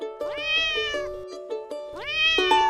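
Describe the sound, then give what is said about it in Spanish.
A white kitten with many black and brown patches meows from inside a school blazer. Two drawn-out, high meows come about a second and a half apart, each rising and then easing down in pitch, with no talk. “Martín llega a casa con el blazer del colegio todo hinchado y ruidoso, que sale desde adentro. Un gatito blanco con muchas manchas negras y marrones.”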